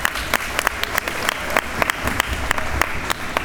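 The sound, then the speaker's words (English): Parents applaud students at a school Christmas event, a thick, continuous round of clapping from a crowd with crisp individual claps standing out throughout. “So they are very excited as well, as they will be moving on to high school next year. So can we give them a round of applause?”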